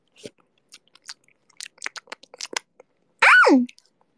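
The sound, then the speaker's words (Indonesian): Mouth noises of someone eating an egg: scattered small wet clicks and smacks, then a louder, longer sucking burst that sweeps down in pitch before fading to quiet. “Otakku jangan diseruput. Aku lagi seruput ini telur. Nyam nyam nyam.”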